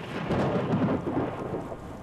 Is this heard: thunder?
yes